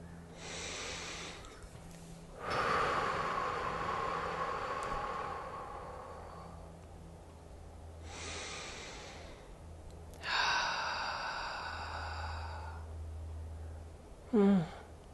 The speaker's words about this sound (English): Take a nice deep breath in through your nose and out through your mouth.